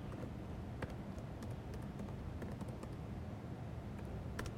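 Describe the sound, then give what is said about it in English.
Computer keyboard keys clicking as a password is typed in, many light, irregular taps scattered over a steady low background noise. “Okay, I'll type in the correct password finally.”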